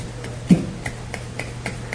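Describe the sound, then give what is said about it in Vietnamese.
One hand clapping, a steady series of light, crisp slaps repeating at an even pace over a low background hum. “Một bàn tay vỗ, người ta vỗ đúng như thường, không có gì đâu.”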